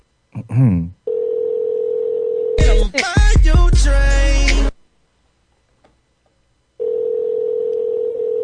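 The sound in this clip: A steady, low-pitched telephone dial tone sounds while a call is being placed. A brief stretch of voices and clatter cuts over it, then a silent pause, and the dial tone returns alone.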